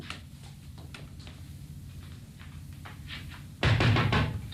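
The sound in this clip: Loud, heavy knocking on a door comes as a rapid burst of hard blows near the end, sharply louder than the quieter sounds before it.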